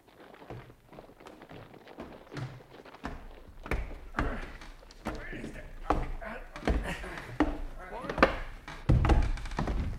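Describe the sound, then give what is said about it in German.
A wardrobe being knocked against a wall in a radio drama: many heavy wooden thunks and knocks at irregular intervals, under people talking. “Du sei vorsichtig mit dem Schrank. Das ist zwar nicht meiner, aber du darfst ihn doch nicht so an die Mauer stoßen.”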